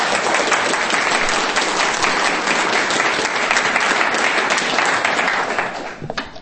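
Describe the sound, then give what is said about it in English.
Audience applause rises as a dense, steady wash of many hands clapping. It holds loud and even, then thins and fades out near the end, with no speech over it. “Ladies and gentlemen, make some noise for Paul.”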